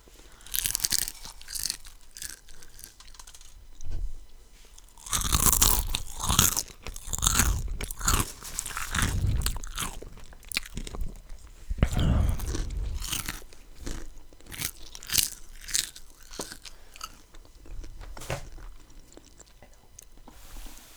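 Crunching while eating a snack: many crisp bites and chewing sounds, repeated irregularly and fairly loud throughout.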